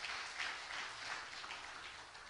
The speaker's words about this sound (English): Give the Lord a hand clap of praise, would you?